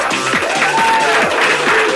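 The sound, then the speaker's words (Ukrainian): An audience gives steady applause, a dense and fairly loud patter of clapping that holds at an even level for about two seconds. “Ну, ці аплодисменти для вас.”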